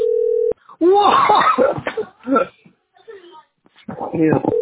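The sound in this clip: A steady telephone dial tone lasts about half a second while a call is being placed, then cuts off abruptly and people begin talking.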